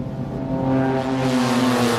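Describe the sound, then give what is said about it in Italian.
Car engines drone steadily on wide roads in a Milan suburb, a continuous low rumbling hum with a broad rushing wash that swells slightly and holds. “Il motore delle auto è un sottofondo costante negli stradoni larghi di quest'unica periferia milanese”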